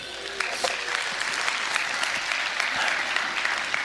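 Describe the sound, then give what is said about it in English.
Audience applause greets a weekend team leader as he is introduced on stage, a dense, steady wash of many hands clapping that holds at an even, loud level for about four seconds. “Give it up for Dirk.”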